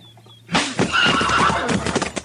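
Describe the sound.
A horse whinnies loudly at a crowded hitch rack, a shrill neigh that breaks in after a brief quiet, wavers in pitch for nearly two seconds and trails into snorting, with faint hoof clopping.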